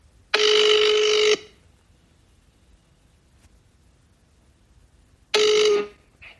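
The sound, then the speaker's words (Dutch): Telephone line tones sound while a call is being placed: two loud, steady electronic tones of about one second each, separated by a long silent gap, with no voices. “We gaan hem even bellen.”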